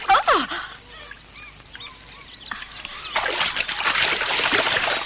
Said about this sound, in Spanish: Tarzán se revuelca en el agua mientras Chita ayuda a Jane a salir del río.